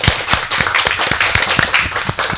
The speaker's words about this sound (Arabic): أكهو سفا عشرة لعشرة، هذه تصفيق على رويحكم.